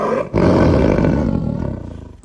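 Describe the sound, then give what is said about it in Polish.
A tiger at a zoo roars loudly, starting with a short breathy intake, then a deep sustained roar that tapers off into a series of rough, pulsing growls. “W ogrodzie po latach znowu urodził się tygrys.”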